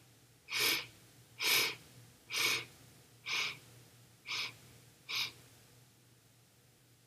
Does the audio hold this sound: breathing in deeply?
yes

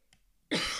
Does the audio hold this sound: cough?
yes

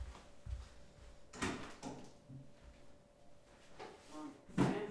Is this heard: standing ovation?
no

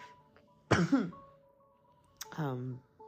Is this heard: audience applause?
no

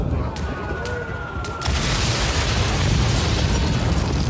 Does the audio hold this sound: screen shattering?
no

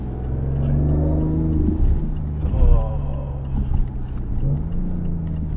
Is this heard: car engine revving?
yes

